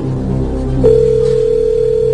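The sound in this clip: A telephone sounds with a single steady electronic tone that begins partway through and holds to the end, loud over a low hum.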